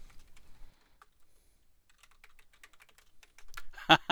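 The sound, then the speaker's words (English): Typing on a computer keyboard: scattered light keystrokes that grow into a dense, loud burst of rapid clicks near the end. “Oh, whoops. I typed too many letters when I was trying to plus plus butt stuff.”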